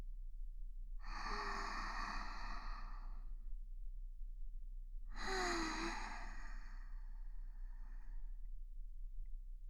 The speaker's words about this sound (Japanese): 少し疲れましたか？それじゃあ深呼吸してみましょうか。